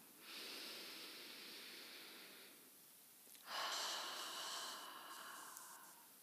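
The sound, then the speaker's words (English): A big, slow, deep breath taken during a guided relaxation exercise: a long, soft, airy rush lasting about two seconds, a short pause, then a stronger, longer breath that tapers off. No one speaks. “I want you to just put your hands on your heart and just take a really nice, big, slow breath.”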